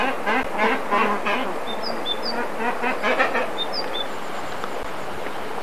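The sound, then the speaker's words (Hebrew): A duck standing on one leg among people gives a few faint quacks over a steady background hiss. Light high chirps are scattered through. “הברווז על רגל אחת, לא מזיז לו אנשים והכל.”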